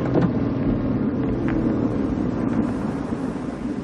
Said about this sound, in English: I'm trying to drive a boat.